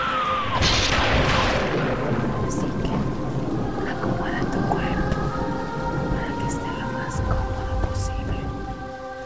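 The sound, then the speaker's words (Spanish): Thunder rolls through a cold, stormy night in London in April 1912, a deep rumble beneath steady, loud rain that runs continuously, with a brighter crackling burst near the start. “Era una noche de tormenta fría y estrepitosa, como suele ser habitual en Londres”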